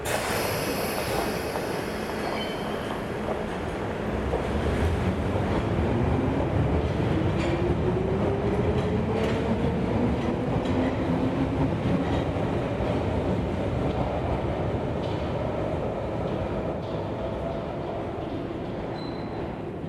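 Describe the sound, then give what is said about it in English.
Underground train arriving at a station, a continuous loud rumbling roar with drawn-out metallic wheel squeal and scattered rail clicks throughout. “Arriving in Reasonville, thank you for riding the Underground.”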